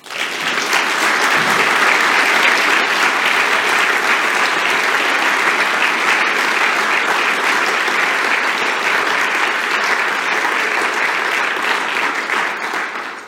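Loud, sustained audience applause welcomes author Salman Rushdie at a literary event in Berlin: dense, steady clapping that holds at full strength for about thirteen seconds before easing slightly at the very end.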